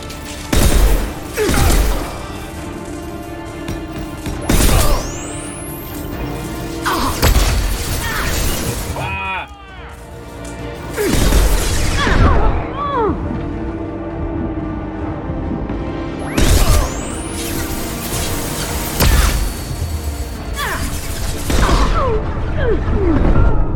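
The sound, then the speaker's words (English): Gunfire erupts in a video game firefight as enemies shoot at a character taking cover. Many loud, sharp bursts recur over a busy backdrop, mixed with whooshes and shattering crashes. “And he goes for cover as a bunch of people shoot at her.”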